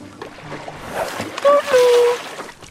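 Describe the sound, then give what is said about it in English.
Water splashes and churns around a sculling rowing boat in a continuous rough wash, with voices calling out over it midway. “That, I'm afraid, was Toad and his current fad for sculling.”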